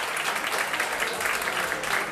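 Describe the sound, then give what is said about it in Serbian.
An audience applauds a pianist at a live concert with a jazz band of piano, double bass and drums. The clapping is dense and even throughout, with no break or swell. “Ivan Aleksijević na klaviru, molim vas jedan aplauz i za gospodina Ivana.”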